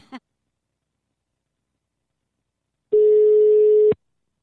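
A telephone busy tone: a brief click, then about a second of one steady, mid-pitched tone that cuts off sharply. No one speaks.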